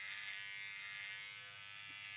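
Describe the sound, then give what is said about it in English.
An electric shaver buzzes steadily during shaving. The hum is continuous and even-toned, quite faint, and does not change over its short length. “Yeah, I'm shaving.”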